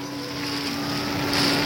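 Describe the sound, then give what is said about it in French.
Boat engine droning steadily near the Statue of Liberty, a broad rushing noise with a low constant hum and some wind buffeting, holding an even loudness with a slight swell near the end. “maintenant le bateau stoppe aussitôt”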